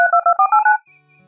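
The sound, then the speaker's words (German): Rapid DTMF dialing tones from a computer's telephone redial function: a quick, even run of many bright two-note beeps that shifts in pitch from beep to beep, then stops and leaves a faint low hum. “Computer, aktiviere die Wahlwiederholung.”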